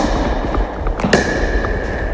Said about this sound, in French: c'est une raquette rigide, c'est une raquette de pickleball. Vous avez une balle en plastique perforée. Et là, je vous laisse déjà découvrir, puis on en reparle après.